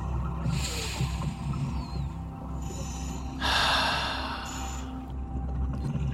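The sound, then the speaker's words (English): A deep breath taken slowly: two long, soft rushes of air, the second louder and noisier, over a faint, steady low hum. “Why don't we take a deep breath together?”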